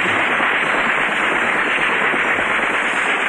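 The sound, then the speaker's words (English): Phosphorus bursts into flame and ignites a mixture in a cylinder, left behind after carbon disulfide evaporates in a chemistry demonstration. It makes a loud, steady crackling hiss that holds unbroken throughout. “the carbon disulfide that remains on top evaporates, leaving the phosphorus, which is inflammable at room temperature, so it bursts into flame and ignites the mixture in the cylinder”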